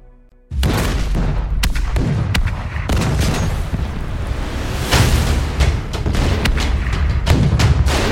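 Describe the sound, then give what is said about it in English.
An artillery barrage erupts along the 38th parallel at dawn at the start of the Korean War in 1950: a sudden onset of many heavy booms layered over a continuous loud rumble, with blasts following each other without pause. “At dawn on Sunday, June 25th, 1950, a massive artillery barrage erupted along the 38th parallel.”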